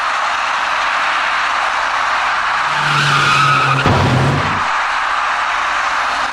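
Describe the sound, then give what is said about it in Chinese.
Tires skid on a wet road at an intersection just after rain, then an electric bicycle crashes into the right rear of a small passenger car; a long squeal swells over steady traffic noise and ends in a short, loud crash. “没能控制好车身，滑出去的电动自行车撞到了那辆小客车的右后部车身”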